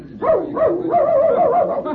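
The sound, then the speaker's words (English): A dog yelps and whines as it runs off after a calf, a loud, continuous run of high, wavering cries that rise and fall for about two seconds, heard alone. “look at that dog go”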